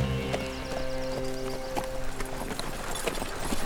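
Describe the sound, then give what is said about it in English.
Hooves clip-clop as horses are kicked into a slow walk, a steady, moderately loud series of many hoofbeats in an even rhythm. “Link McCoy and Zane Maxwell kicked their horses into a slow walk”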